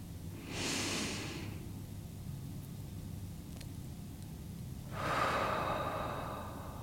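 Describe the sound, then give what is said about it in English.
A slow deep breath during a guided meditation: two soft, airy breath sounds separated by a long quiet pause, the second slightly louder and longer, with no talk. “consider if you'd like to take a breath with me”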